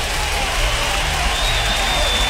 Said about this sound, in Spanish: De Molina, un aplauso para Molina, claro que sí.